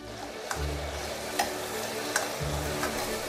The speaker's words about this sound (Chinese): 锅中放少许油，加入葱姜蒜片等，炒出香味，加入酱油